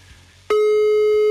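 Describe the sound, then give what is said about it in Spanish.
A telephone line tone heard while dialing a caller: after a faint low background, a loud, steady electronic tone cuts in partway through and holds unbroken to the end. “Estamos marcando a Elisua o Elisa.”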